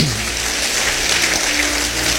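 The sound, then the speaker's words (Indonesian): An audience applauds during a motivational talk. The clapping is dense and even, a constant clatter that holds steady through the whole clip. “Ya, beri tepuk tangan bagi dia.”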